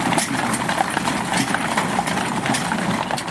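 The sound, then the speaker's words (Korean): Hooves clip-clop as six horses pull an ammunition caisson down a leaf-strewn, tree-lined avenue of a military cemetery in autumn. Many quick, irregular hoof strikes sound over a steady, noisy background. “낙엽이 수북히 쌓인 가로수 사이로 6마리의 말이 끄는 탄약마차가 나타납니다.”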